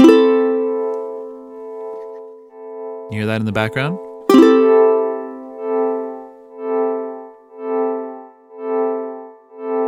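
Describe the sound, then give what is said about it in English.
A guitar chord is struck and held, then swelled as the volume knob is swept up and back down. The level rises and falls in several smooth wave-like pulses with no sharp attack, and a voice speaks briefly during the chord. “you sweep up the volume knob, and then you sweep it back down, which creates a sort of a wave of sound”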